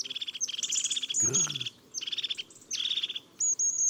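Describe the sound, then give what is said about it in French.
European robin calling in October, with many short, high, thin chirps and ticking notes in quick bursts separated by brief pauses. “Le rouge-gorge et ses petits cris d'octobre.”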